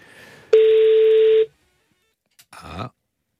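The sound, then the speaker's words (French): A telephone being dialled to place a call: one loud, steady electronic tone lasting about a second, then a short silence and a brief crackly burst. No voices. “Déjà, appelons pour essayer d'avoir quelqu'un.”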